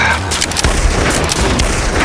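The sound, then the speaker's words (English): Gunfire from Winchester rifles in a rocky valley, a loud, dense barrage of overlapping shots and booms that continues without a break. “opened fire on the warriors across the valley mouth”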